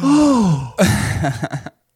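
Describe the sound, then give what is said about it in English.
A person imitates a gasp sound effect with the voice: a drawn-out voiced cry that slides downward, then a burst of breathy, broken vocal sounds that ends abruptly in silence. “Yeah, I feel like we should have cued a clap track. Or like a gasp track, like,”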